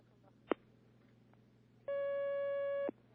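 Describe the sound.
A phone line sounds as a call comes in: a single sharp click, then a steady electronic tone that holds for about a second before cutting off. Both are faint over a low background hum.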